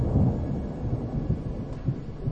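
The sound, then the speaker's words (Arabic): Deep thunder rolls in a low, throbbing rumble under a sky that gives no rain, a few heavy pulses swelling and fading against a continuous murmur. “استمر هدير الرعد.”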